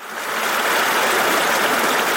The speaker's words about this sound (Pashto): دا د خوست ولایت د تڼې ولسوالۍ اړوند د نریزي له غرونو بهیدونکو دایمي اوبو دي